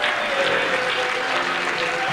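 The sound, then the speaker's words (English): A church audience claps its hands during a lively worship service, a dense, steady wash of many hands clapping at even loudness throughout. “All over the building, I want you to clap your hands.”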